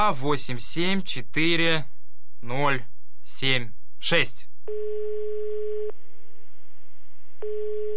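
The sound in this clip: Ringback tone of a telephone ringing with no one answering, heard after a short stretch of speech: a steady mid-pitched tone sounds, drops to a faint hum, then returns in a second loud burst.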